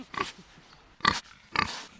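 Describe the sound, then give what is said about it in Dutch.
Free-roaming farm pigs grunt and snort in three short, loud, evenly spaced bursts, with quiet gaps between them. “Dan word je begroet door de varkentjes.”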